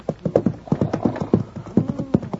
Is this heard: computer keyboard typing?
no